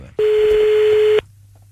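A single steady telephone tone as a call is placed during a live radio phone-in, sounding once for about a second at a constant pitch, loud and alone, followed by a faint low hum.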